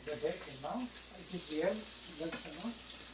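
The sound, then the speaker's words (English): Bacon frying in a pan in a hotel suite, a faint steady sizzling hiss beneath people talking. “Now we're in Dad's suite and he's cooking. What'd you make, Dad? Well, I'm making the bacon,”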